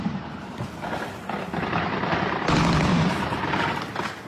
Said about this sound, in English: Russian air defences trying to shoot down Ukrainian drones in Crimea.